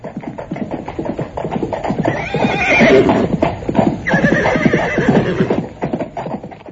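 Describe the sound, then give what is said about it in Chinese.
A horse-drawn carriage speeds away: a horse whinnies loudly in the middle while fast, steady clip-clop hoofbeats run throughout. “番茄骑士吓坏了，跳上马车飞快逃去。”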